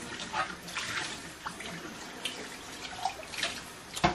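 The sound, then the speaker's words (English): Tap water running as a coffee mug is rinsed out, a quiet uneven stream of splashing with a few sharper spurts and drips, and a louder splash at the very end. “Okay, rinsing out the mug here.”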